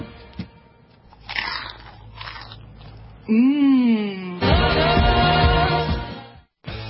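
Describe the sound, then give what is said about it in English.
Chewing and munching of mashed potatoes, with soft biting and mouth noises and a drawn-out voiced sound in the middle, followed by more eating. “These mashed potatoes are amazing.”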